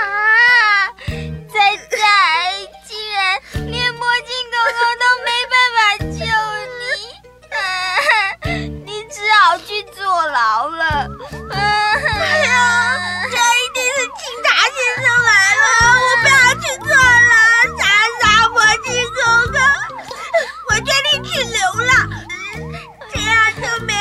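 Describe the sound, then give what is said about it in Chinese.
Two small children cry together, their high-pitched wails and sobs rising and falling in long, wavering bursts with brief gaps, loud and continuous over about twenty seconds. “你们两个小家伙别哭了”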